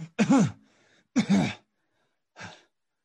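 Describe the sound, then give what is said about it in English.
A person coughs and clears their throat in three short voiced bursts separated by pauses. The first two are strong and rough, and the last is fainter and shorter. “You start to cough.”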